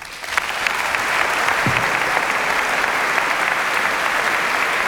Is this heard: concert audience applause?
yes